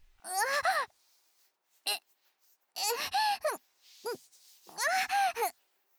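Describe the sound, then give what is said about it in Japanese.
Heavy, voiced panting breaths come in a few long, breathy bursts with moaning, gasping tones, with shorter quick breaths between them and near silence in the gaps. “はあはあ、キモい息漏らすなって。”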